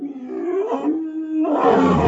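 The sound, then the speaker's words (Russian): A hungry predatory beast roars: a deep, drawn-out, tonal roar that swells and turns rougher and harsher toward the end, loud and alone with no talk. “Рев повторился. В нем слышалось нетерпение изголодавшегося хищника, завидевшего, наконец, добычу.”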